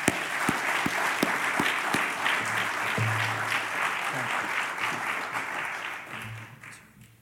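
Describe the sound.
A church audience at Hanover Baptist applauds to welcome guest missionaries, with dense, steady clapping that fades out near the end.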